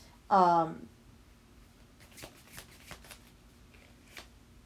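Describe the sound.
Tarot cards being handled and drawn, heard as a few faint, soft flicks and taps after a short voiced sound at the start.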